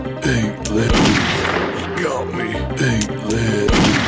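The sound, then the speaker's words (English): Gunshots ring out in the Wild West video game Grizzly Gulch, several booming reports spaced irregularly across the stretch, while a voice talks excitedly over them. “It's an ambush! I see him! He got me!”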